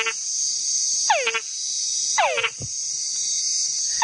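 Male frog mating calls: a few repeated whines sweeping downward in pitch, one followed by a short low chuck, over a constant high insect drone.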